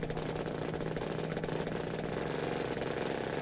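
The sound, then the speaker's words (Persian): A propeller airplane engine runs as a loud, steady, buzzing drone with a rough, even rattle throughout and no clear change in pitch or level. “علی ملخ هواپیما رو میچرخونه. موتور روشن میشه.”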